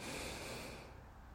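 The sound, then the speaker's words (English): One long, deep inhale through the nose: a faint, breathy hiss that stays steady and then tapers off near the end. “Inhale through the nose, big inhale.”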